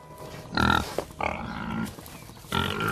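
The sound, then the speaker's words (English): A white pig with black markings, led on a rope out of a barn, gives several short, rough grunts in uneven bursts with brief pauses between them. “Then he emerges from a barn, leading a pig on the rope lead.”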